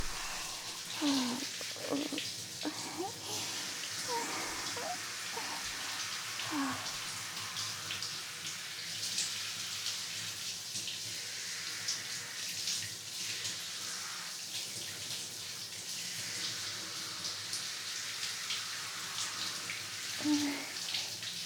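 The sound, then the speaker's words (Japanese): A shower sprays water to rinse someone's hair in a steady, fairly faint hiss that runs throughout, with slight shifts in texture as the spray moves. No voices are heard. “しっかりと入念にシャワーを当てて、”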